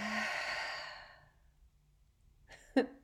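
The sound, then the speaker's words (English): A deep, slow exhale during a guided breathing exercise, breathy and soft, fading out over about a second; after a quiet pause, a brief, sharper breath sound follows. “So let's take a deep breath here. Take in some air and exhale some air.”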